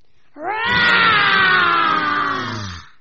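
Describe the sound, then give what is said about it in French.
Children imitate a lion's growl with their voices, producing one loud, sustained, throaty roar that swells quickly and holds steady for about two and a half seconds before cutting off. “on va faire un ni oui ni non avec les lions qui vont d'abord commencer par nous faire un petit grognement.”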